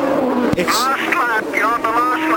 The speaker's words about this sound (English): Sounds like he's saving fuel right now. I mean, when he went through the chicane that time, normally he would just lighten it up, and boy, he really laid the throttle down easy.